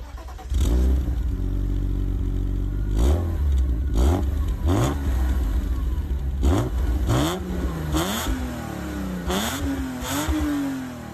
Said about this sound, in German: So klingt nur ein BMW. Allerdings. Also es ist wirklich parademäßig BMW rein Sechszylinder. Heiser. Hört euch mal an, wie schön der das Gas annimmt,